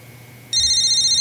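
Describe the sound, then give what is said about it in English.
A telephone rings with a bright electronic ringtone, a loud high warbling trill that cuts in abruptly about halfway through and pulses steadily to the end. “Will somebody answer that damn phone?”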